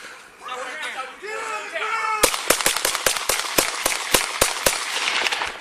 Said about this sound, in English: That's the officer shooting the boy 11 times.